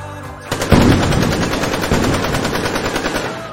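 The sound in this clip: Heavy machine-gun fire erupts in a police shootout with a suspect. Loud, rapid automatic bursts start after a brief quiet lead-in and rattle on continuously to the end.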